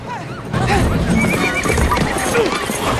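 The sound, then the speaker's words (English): A horse tied to a stake rears in panic after firecrackers go off, giving loud, high neighs and whinnies over clattering hooves as it breaks loose among a crowd, with voices mixed in. “The firecrackers go off, making the horse rear and pull the stake that it's tied to out of the ground.”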